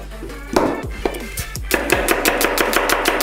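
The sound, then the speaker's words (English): Knife chopping an onion finely: a few scattered sharp strikes, then a fast, even run of crisp repeated chops. “As you can see, I'm chopping the onion rather finely. No need to look if you know where the blade is.”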